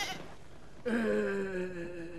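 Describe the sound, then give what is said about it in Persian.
A young goat bleats once, breaking in abruptly after a quiet start and holding a long, nasal, wavering cry that sinks slightly in pitch toward the end. “این همون بزغاله ای نیست که سفتر بخشیده بود به اون پیر زن بدبخت؟”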